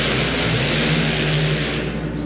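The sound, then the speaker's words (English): Loud, steady droning roar of a Yamaha Banshee two-cylinder two-stroke quad fitted with a road racing engine, running flat out during a race with no clear breaks in the sound. “it's a Yamaha Banshee, one of those two-cylinder, two-cycle quads with a road racing engine in it.”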